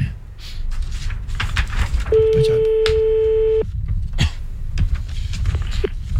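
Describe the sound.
An outgoing telephone call rings out as a single steady ring tone lasting about one and a half seconds, surrounded by noisy clicks, rustling and background hiss.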